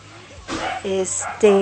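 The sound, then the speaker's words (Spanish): Dogs fighting and barking, with a few sharp barks, yips and whimpering cries in quick, uneven bursts that grow louder toward the end. “se escuchan unos perros que están ahí peleando. ¿Escuchan?”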